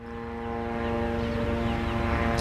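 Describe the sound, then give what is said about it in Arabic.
Military drones flying over Gaza City near the Al-Shifa and Al-Nasr areas, heard as a continuous droning engine hum with a steady tonal whine that grows slightly louder. “الطائرات المسيرة بكل أنواعها الآن تحلق في أجواء قطاع غزة بعمومها، والآن في مدينة غزة تحديدا في منطقة الشفاء هنا ومنطقة النصر”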